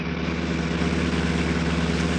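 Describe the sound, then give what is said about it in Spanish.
Engine of a small grocery delivery truck arriving, a steady low droning hum that holds level throughout. “Alguien se acerca. ¡Es un auto! Es una camioneta. Un camión.”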